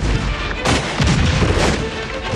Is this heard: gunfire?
yes